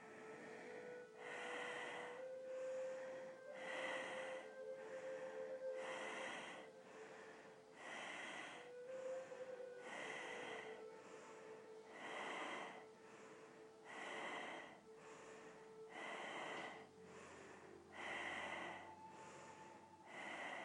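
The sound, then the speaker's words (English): Hissing ujjayi breathing, inhales and exhales of similar length repeating in an even rhythm, many breaths in a row, soft and airy over a faint steady tone, with no talk. “breathing in with that hissing UGI breath and the same length out breath. And we're going to do 10 of those and then hold the breath out. So away you go.”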